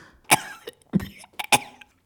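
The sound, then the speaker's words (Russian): A wounded man coughing: a few harsh, rough coughs in uneven bursts, loud against a quiet background, with no talk. “Раненый закашлялся.”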